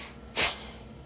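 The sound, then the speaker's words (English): A voice imitates an angry man's snort: a single short, forceful burst of breath pushed through the nose, hissy and rough, standing out against quiet background. “he snorts mm-hmm. at me.”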